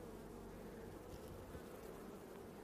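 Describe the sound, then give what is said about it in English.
Honeybees buzz in an open hive during an inspection, a dense, continuous low drone that stays faint and even throughout, with no voices. “So to give myself more room to work in the hive, I'm going to pull this out, check if there's any queen on this frame.”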